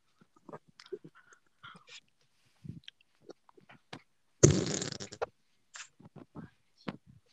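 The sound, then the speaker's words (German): A fart blown directly into a microphone: one loud, buzzy, rough burst lasting about a second, set among many faint scattered clicks and small noises on either side. “Mikro gefurzt, Alter.”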